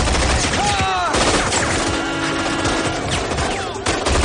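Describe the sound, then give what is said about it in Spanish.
Rapid, repeated gunfire from a man shooting without mercy during a crime-film shootout: loud, dense, continuous bursts of shots run through the whole stretch with barely a pause. “Luego sale y comienza a disparar sin piedad”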